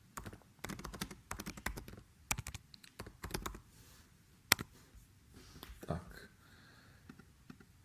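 Typing a message on a computer keyboard: irregular bursts of quick, crisp keystrokes broken by short pauses, with one sharper, louder click partway through.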